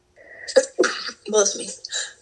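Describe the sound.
A single sudden sneeze from a person with allergies, brief and sharp, followed by a voice speaking.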